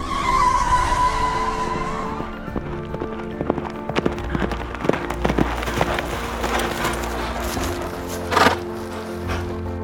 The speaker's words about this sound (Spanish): pegó un volantazo para abandonar su órbita derrapando y aterrizar frente a la cueva.